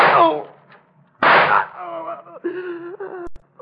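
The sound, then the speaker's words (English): Two sharp, loud gunshots ring out in a dramatized scene where a man is shot in the back. The shots are about a second apart, and a man's voice follows, talking between quieter sounds. “Don't shoot any more, please. You hit me in the back.”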